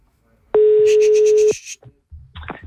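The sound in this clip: Telephone dialing to call a hotel: a loud, steady electronic tone holds for about a second and then cuts off, followed by a few fainter short beeps and clicks.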